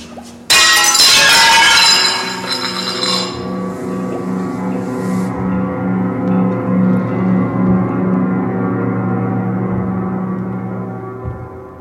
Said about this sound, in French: Allez, allez, aide-moi à casser cette vitrine.